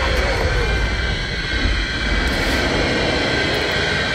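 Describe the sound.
Bomber aircraft engines in a film drone with a loud, continuous roar, a dense and steady rumble that holds without any break.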